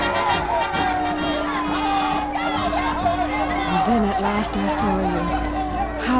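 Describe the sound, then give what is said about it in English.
A crowd of people on a pier, gathered for a regiment's homecoming, fills the air with dense, steady chatter and hubbub, while nearer voices talk over it. “through that crowd, I'll never know. Please let me through.”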